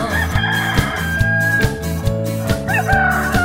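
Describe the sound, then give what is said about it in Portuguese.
A speckled carijó rooster crows with some clucking, set over a steady rhythmic musical beat with a sustained tone. “A galinha e o galo carijó.”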